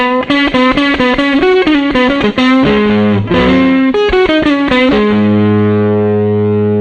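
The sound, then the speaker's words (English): A bass played through a Homestead Amps Texas Storm 1x15 combo amp with the treble turned all the way down: a loud, gritty run of many quick plucked notes, then a long sustained low note ringing out alone. “Notice that the amp does not sound kind of muddled or hard to hear. It still has enough high end, even with the treble all the way down.”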